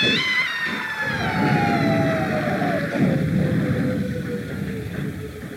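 An ambulance siren wails loudly and continuously, its pitch sliding steadily downward over several seconds above a low engine rumble.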